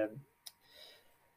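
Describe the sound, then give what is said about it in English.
A single sharp computer mouse click cuts in just after a brief bit of speech, followed by a faint, low background murmur. “sorry, just looking at there now again. So we were, I have to click into it, bear with me.”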